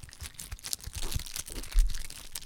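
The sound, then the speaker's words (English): Plastic shrink wrap being torn off a pack of cards: a faint, continuous stream of crinkling and crackling with a few sharper rips, and no talk. “That's the shrink wrap around the cards.”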